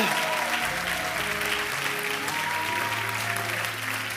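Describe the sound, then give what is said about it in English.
A church audience applauds to welcome guests, giving steady, dense clapping that holds at an even level throughout. “If you are a guest, stand right now. You don't have to say nothing. We just want to celebrate you. Come on, baby. You put your hands together. Make them feel really, really, really, really welcome.”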